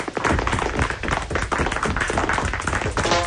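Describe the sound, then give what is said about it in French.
Applause in a classroom comedy sketch: a loud, dense, continuous patter of many hands clapping, steady in level for about three seconds. “On applaudit Joe le séchoir.”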